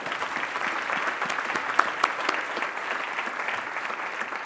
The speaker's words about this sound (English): please give this guy a huge round of applause.